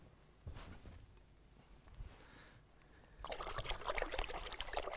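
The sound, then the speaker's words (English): Water is poured to wash paint brushes, starting as faint scattered trickles and splashes, then turning into a louder, steady pour in the final stretch. “What do I need to do so that these brushes can come into that pole without contaminating it? What do I need to do? Wash them. Cleanse them.”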